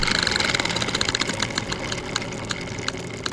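A spinning prize wheel clicks as it turns to pick categories. Rapid, bright ticks come thick at first, then space out steadily as the wheel slows, with no voices.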